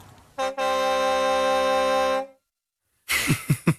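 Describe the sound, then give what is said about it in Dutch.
A truck horn sounds one brief blast, then a long steady blast lasting about two seconds with a rich, buzzy tone, followed by quiet. “Ook een lekkere toeter op het einde.”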